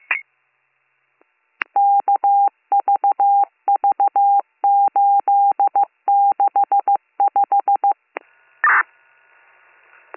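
A telephone is dialed to call back an earlier caller: a brief opening tone, then many quick touch-tone beeps in short clustered groups, ending with one longer burst of tone.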